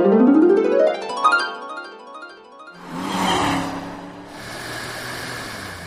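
A car drives on the road to Orlando, its engine note climbing in pitch as it accelerates, followed by a steady rush of road noise.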